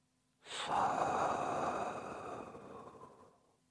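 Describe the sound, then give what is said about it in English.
Breath drawn in during a meditation demonstration: a single long, airy inhalation that swells quickly, holds steady, then gradually fades, with no voice over it. “Listen carefully to your own breath while I demonstrate the subtle sound that exists in the breath. On inhalation,”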